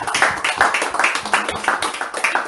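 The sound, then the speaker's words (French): Clapping from a church audience during a French-language worship service, a steady dense patter of many hands at an even rhythm, fairly loud, with no one speaking over it. “Applaudissons encore pour le Seigneur.”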